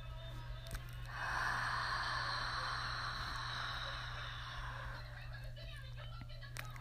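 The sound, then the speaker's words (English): A long, deep breath drawn in and then let out, heard as a slow, steady, soft airy rush that lasts several seconds. It is quiet and sits over a faint low hum. “5 long deep breaths in and out. So here's breath number 1. Inhale. Exhale.”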